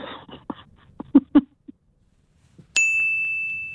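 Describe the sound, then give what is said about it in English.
A single bright ding from a quiz answer bell rings out and sustains, following a few soft clicks and knocks. “As you can tell, I'm not in charge of the dinger. I'm going to call it the dinger.”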